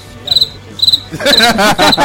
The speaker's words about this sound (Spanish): A ver, el grillito, mátamelo. Písalo. Písamelo.